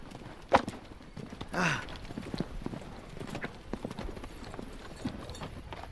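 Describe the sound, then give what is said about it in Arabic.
A mule's hooves clip-clop along a road in pitch darkness, a faint, steady walking beat with a couple of sharper knocks early on. “إن هذا البغل المسكين لا يمكنه الاهتداء إلى الطريق في الظلام الدامس. هيا انطلق أيها الحيوان أسرع.”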